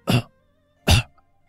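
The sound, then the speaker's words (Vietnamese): Two dry coughs from a frail, sick old man, each a short rough burst, separated by a brief pause with silence around them. “Lão nói được một câu lại tiếp tục ho khan”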